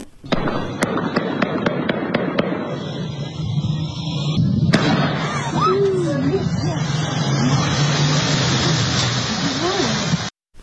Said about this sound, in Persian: در آن صدای پیوسته شلیک گلوله شنیده می‌شود